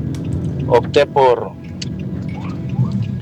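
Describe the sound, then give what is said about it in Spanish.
A car is driven home from work, with a low, steady road rumble and engine hum running beneath a person talking. “perdón. Es que voy conduciendo hacia la casa.”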